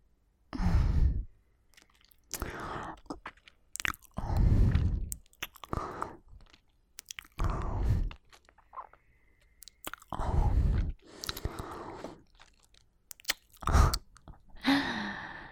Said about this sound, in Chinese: 你在跟我说话之前，是不是还自己偷偷吃了什么口香糖之类的？